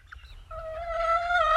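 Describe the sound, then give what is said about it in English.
A hen's brooding call to her chickens: one drawn-out, harmonic note that grows slightly louder toward the end, preceded by a faint short chirp. “The brooding call, by which she calleth her chickens to come under her wing.”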